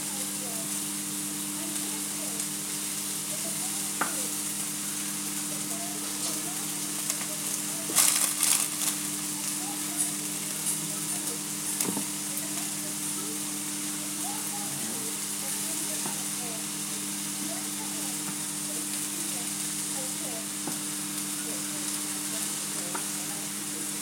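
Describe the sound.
Onion sizzles as it fries in a pan, a steady, even hiss with a low hum underneath, broken by a brief clatter of stirring partway through.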